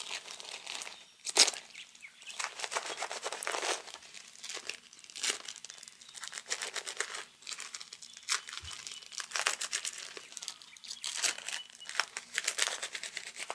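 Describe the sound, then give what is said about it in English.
Adhesive tape is pulled and pressed on while someone is being taped up, making faint, repeated crinkling and tearing sounds in irregular bursts throughout. “We're almost done now. Get you all taped up.”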